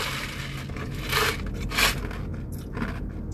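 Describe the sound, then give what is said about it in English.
Ice from a soda crunches as someone chomps on it. A few crisp, crackling bites stand out against a steady background hiss, with no talk. “I'm chomping on the ice of the soda right now”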